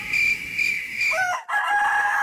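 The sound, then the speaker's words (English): A rooster crows in one drawn-out, high, strained call lasting about two seconds, with a short break near the middle. It is loud and clear with no talk over it. “one chicken two chicken one chicken”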